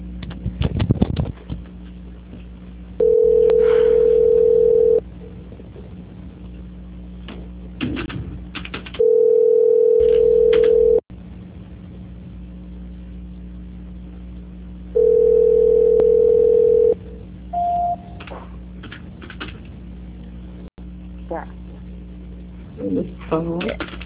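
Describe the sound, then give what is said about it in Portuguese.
Telephone call transfer tones during a service call being handed to a quality-control line: three long, steady mid-pitched beeps separated by pauses, over a low line hum, ending with a brief higher blip. “Por favor, que eu vou transferir a sua ligação. Transferência.”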